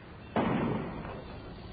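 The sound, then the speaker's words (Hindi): A single sharp gunshot bangs abruptly in a city during riots, a loud burst that decays over about a second above steady background noise. “क्यों जी, ये गोली की आवाज है। गोली की आवाज?”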